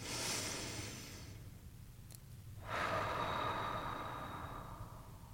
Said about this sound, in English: I invite you to take a breath.